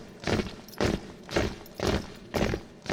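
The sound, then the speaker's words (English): Marching feet of the King's Own Grenadier Guards: five heavy, evenly spaced stamps about half a second apart, loud and regular like boots striking in step. “the marching feet are provided by the King's Own Grenadier Guards. So it's up, two, three, four, and let's hear those marching feet, please.”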